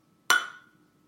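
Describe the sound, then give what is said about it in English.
A single glass clink for a drinking toast: one sharp, bright strike with a ringing tone that fades out quickly, heard alone. “That was a terrible-ass clink, by the way.”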